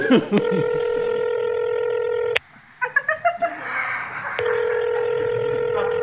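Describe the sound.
Telephone call being dialed and ringing: a steady, buzzing electronic tone, a quick run of keypad beeps, then the steady ringing tone returns and holds to the end.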